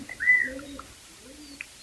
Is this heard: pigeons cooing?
yes